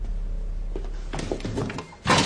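An intact bathroom door is opened: a few soft clicks and knocks from the handle and frame, then a louder, rushing thump at the end, with no voices.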